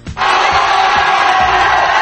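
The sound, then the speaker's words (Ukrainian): Relatives cheer and shout loudly as 33 miners, trapped 69 days at the San José mine, are brought up from 700 metres underground. After a brief quieter moment the roar of the crowd erupts suddenly and holds steady and loud. “Всі 33 шахтарі, що пробули під землею, відрізані від усього світу 69 днів, підняли на поверхню під бурхливі вигуки рідних і близьких”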